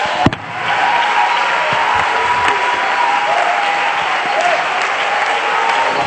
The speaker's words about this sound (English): Why don't you clap your hands like Jesus just walked in the door?